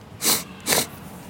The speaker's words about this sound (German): So, das Schniefen. Ich glaube im Monaco-Abschnitt.